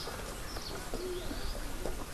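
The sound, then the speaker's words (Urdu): Birds chirping in a small mountain village in the early morning, faint cooing and light chirps scattered over a soft background. “یہ چھوٹا سا گاؤں پرندوں کی چہچہاہٹ کے ساتھ ساتھ بچوں کی آوازوں سے بھی گونج رہا ہے۔”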